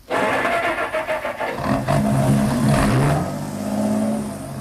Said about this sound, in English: He started the motor.